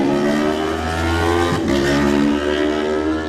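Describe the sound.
A racing motorcycle, a Kawasaki in a road-race time-trial start, sets off: a loud, sustained engine roar with a strong buzzing tone that holds steady and dips briefly midway.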